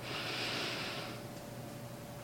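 A person breathes slowly in and out: one soft, airy breath hisses for about a second, then fades into a quiet, steady low hum.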